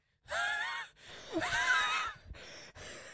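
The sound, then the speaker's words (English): A person's voice imitates an old man's wheeze: two long, raspy, high-pitched breaths, the second longer and more strained, then a couple of short breathy puffs. “Did you hear that wheeze? I followed it up with an old man wheeze.”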